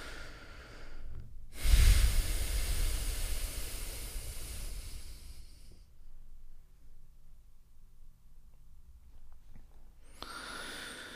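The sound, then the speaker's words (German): A forceful exhale during a guided breathing exercise, made while bending the upper body forward and pressing the air out. One long, loud breathy rush lasts about four seconds, strongest at its start, followed by quiet before another breath begins at the end. “Und wenn du hier ausatmest, kannst du den Oberkörper auch nach vorne beugen und richtig pressen beim Ausatmen.”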